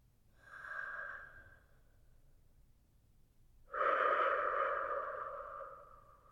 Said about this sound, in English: Taking that clean air in. And that smoke out.